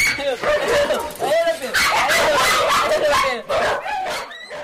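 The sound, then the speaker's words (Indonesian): Many dogs bark and yelp in kennels at a shelter for abandoned dogs, a dense, continuous chorus of overlapping high yips and barks with no pause. “Puluhan anjing lain di kandang sontak riuh,”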